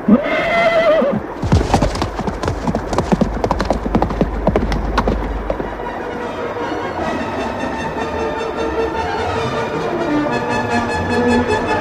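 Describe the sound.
A loud horse whinny opens, followed by rapid, pounding hoofbeats of a galloping warhorse charging into battle, the rhythmic clatter running for several seconds before easing into a softer sustained sound.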